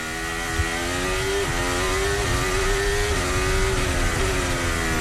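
Loud, high-pitched engine whine of a Formula 1 race car during third practice at the Hungarian Grand Prix, holding steady throughout and climbing in pitch between several quick gear changes.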